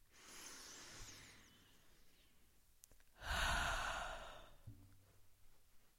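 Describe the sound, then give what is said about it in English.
Deep breaths during a guided relaxation exercise: two long breath sounds, a soft airy first breath followed by a louder, fuller rushing one, with a faint low hum in the background and no talking. “Exhale, let it all go. And just notice what happens to your body every time you do that. So just go ahead, take a few deep breaths.”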